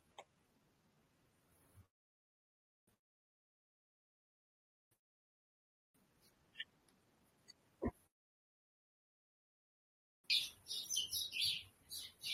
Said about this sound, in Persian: صدای این گنجشکای ما رو میشنوید؟